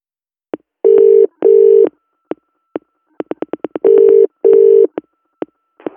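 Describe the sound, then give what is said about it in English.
Telephone dialing tones from an office phone call in 1986: a rapid series of short clicks mixed with four steady, loud electronic tones in two pairs, heard alone without speech. “Call John Smith, office. John Smith, office. Dialing.”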